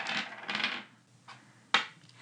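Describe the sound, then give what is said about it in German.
Small dice shaken and tumbling onto a hard surface, giving a loud rattling burst, a pause with a brief clatter, then two sharp clicks as they settle; no talk. “Ich schüttel jetzt die Würfel und dann gucken wir mal, was bei rumkommt.”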